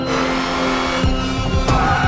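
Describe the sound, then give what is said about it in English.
Car engine droning as a stick-shift car takes off backwards in reverse during a chase, a steady, fairly loud hum with a couple of brief sharp bursts partway through. “Oh, I think I'm starting to get the hang of the stick shift. The car takes off backwards. Vickers passes going forward as Lindy drives backwards.”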